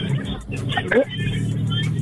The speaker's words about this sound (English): Who we got? Somebody driving.